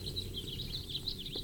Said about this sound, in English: Still a Blomquist pasture bird.